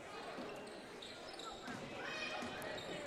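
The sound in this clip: A basketball is dribbled on the court during a girls' high school game, giving a few faint bouncing thuds under steady crowd murmur and hiss.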